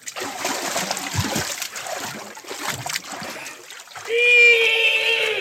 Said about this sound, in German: So, jetzt kann ich wieder allein schwimmen, Sir. Danke. Wirklich? Dann los.